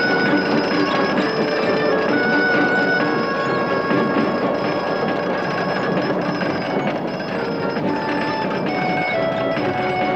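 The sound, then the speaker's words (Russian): A winch hauls a machine tool along rails into a workshop, making a continuous grinding, rattling clatter with thin squealing tones. The sound stays steady and fairly loud for the whole stretch, with no talk. “Рабочие вынимают станки из деревянных ящиков. Лебедка затягивает станок по рельсам в цех.”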